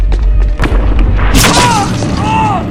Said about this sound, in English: As the soldier in front of Chutsky starts up a flight of stairs, he's struck by gunfire.